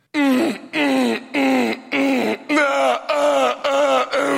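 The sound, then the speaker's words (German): A voice imitates a neighbour's loud sex moaning: eight long, drawn-out moans in a steady rhythm, each separated by a short gap and sliding downward in pitch. “Der f***t jeden Abend sehr laut. Wirklich, das hört sich jeden Abend so an bei mir.”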